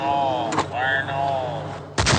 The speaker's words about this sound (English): You fill the hole with dynamite and put stemming on the top and then you blast it.